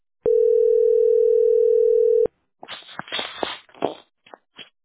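A telephone tone sounds once as a steady, loud buzz lasting about two seconds, then stops and gives way to rustling and shuffling handling noises.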